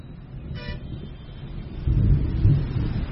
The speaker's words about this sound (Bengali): সম্বলপুরে যখন ফিরলাম তখন সেখানে তুমুল বৃষ্টি।